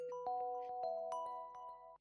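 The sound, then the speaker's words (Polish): A phone ringtone for an incoming call: a quick chiming melody of many short, bright notes at an even level, cutting off abruptly just before the end. “Ktoś do nas dzwoni?”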